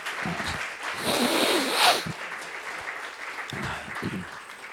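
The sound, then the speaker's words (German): Applause from an audience after a speech on socialism and Marxism: a dense, steady patter of clapping throughout, with a few voices rising over it. “Jetzt staune ich aber, es gab ja doch Beifall.”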